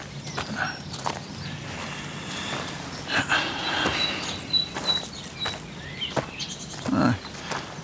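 Footsteps of people walking, with a series of soft, irregular steps over a steady low background rumble.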